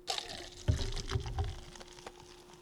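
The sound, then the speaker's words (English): Peeps marshmallow-flavored Pepsi is poured from a bottle into a small cup, a splashing, fizzing stream with a few heavier gurgling surges before it trails off. No voices. “We're going to pop open the bottle. I wish it was a bottle of something else. Pour it into my little cup here so you can hear some sound effects”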